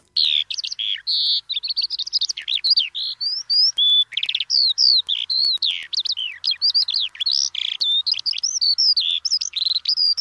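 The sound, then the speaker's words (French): A Eurasian skylark singing: a long, unbroken stream of rapid, high-pitched chirps, trills and warbling notes with no pauses, alone against a quiet background. “Après ce chant d'alouette des champs”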